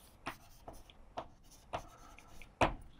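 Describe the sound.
Writing diagrams on a board, a few short scratchy strokes spaced irregularly, faint, with the last stroke the loudest.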